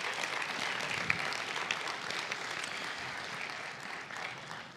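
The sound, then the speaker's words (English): A church audience claps to welcome people watching online, a dense, steady round of applause that holds at an even level and tapers slightly toward the end. “So, congregation, can we put our hands together and welcome those who are joining online?”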